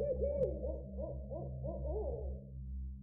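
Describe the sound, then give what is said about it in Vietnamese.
A barn owl calling from the dense canopy of an old village banyan tree, a steady run of many short, arching hoots that sound mournful and continuous over a low hum. “Bất giác từ trong tán cây đa rậm rạp bắt đầu vang lên tiếng chim lợn, nghe vô cùng não nề”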